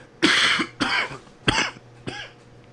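Four harsh coughs as vape smoke goes down the wrong way, each a loud broad burst followed by a shorter rasping tail, spaced about half a second apart and fading slightly toward the end.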